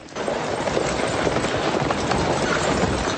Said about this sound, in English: And here's the stagecoach arriving, and they're running to help the stage.